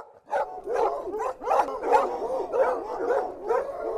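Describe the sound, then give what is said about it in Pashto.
Dogs bark in a Kabul neighbourhood where displaced families live in tents: a rapid, fairly loud run of many sharp, mid-pitched barks, close together and with no talk. “سپیان زښته ډېر شوي دي، هېڅوک مخنیوی کوی نشي.”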